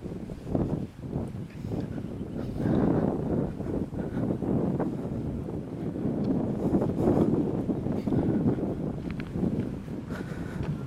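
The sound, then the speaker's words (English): Hard wind blowing outdoors, a steady rushing roar that swells and gusts for the whole stretch, with no talking. “Now the wind's blowing harder. I do hope that you hear that.”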